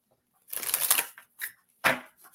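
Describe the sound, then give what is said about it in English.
Oracle cards being shuffled before one is pulled: a soft riffling burst about half a second long, followed by a few short, quiet flicks. “Okay. I will pull a card for you.”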